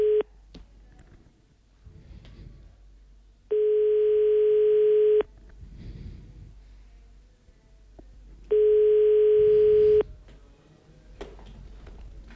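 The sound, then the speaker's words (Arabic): A phone line rings while someone places a call. Long, steady electronic tones sound alone against a quiet hiss and are separated by several seconds of near silence. “كنتظروا سي قطرب يجاوبنا”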